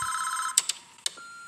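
A telephone rings in a scene from the film American Psycho: a steady electronic tone holds for about half a second, then breaks into a few sharp, bright bursts before settling back to a thinner tone, with no voices.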